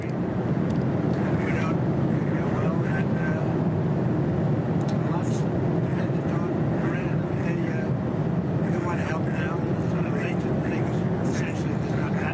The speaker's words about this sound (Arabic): معذرة، الصوت مشوش جدا في الطائرة. الصوت مشوش جدا، لا يمكن الاستماع إلى شيء.